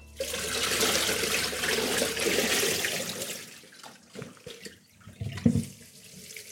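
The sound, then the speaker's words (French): Tap water runs as something is rinsed again by hand after soaking, a steady rushing hiss for about four seconds. Then it stops, leaving scattered drips and soft handling noises. “je rince encore une fois de mon côté.”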